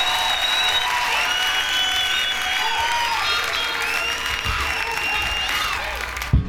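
Audience applause for Huey Lewis: dense, steady clapping from a crowd that holds evenly for about six seconds before ending abruptly.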